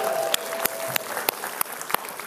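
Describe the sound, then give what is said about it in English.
Church audience applauding as a campus audience is welcomed. A dense, steady patter of many claps runs throughout, with a few sharper claps standing out. “East Campus, make some noise. Woot, and let's all welcome East Campus together as one church.”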